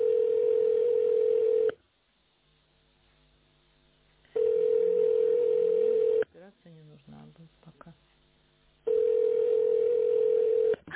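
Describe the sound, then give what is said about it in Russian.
Telephone ringback tone while placing a call: three long, steady, mid-pitched tones separated by silent gaps, with a person speaking during the second gap. “Продолжаю дозвон. Да что ж такое? Абонент еще не ответил.”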